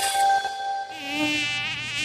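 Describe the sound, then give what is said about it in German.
A mosquito buzzes in a studio, a thin high-pitched whine that wavers steadily and fairly quietly throughout, alone without voices. “Dies Jahr ist es echt eine Plage mit den blöden Mücken. Aber erledigt, zumindest die hier. Aber ich wette, da schwirren noch mehr in unserem Studio rum.”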